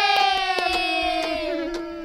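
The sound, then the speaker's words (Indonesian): Children in a classroom cheer with a long, drawn-out shout that slowly sinks in pitch, and a few scattered claps sound beneath it. “Ya, tepuk tangan. Yeay.”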